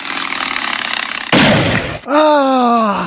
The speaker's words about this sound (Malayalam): ആ സാൻഡേഴ്സ് ഭഗത് സിംഗേ ആദ്യത്തെ വെടി ഞാൻ പൊട്ടി